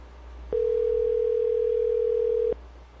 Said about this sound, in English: Let's try it again. What did it do? It rang and went to voicemail.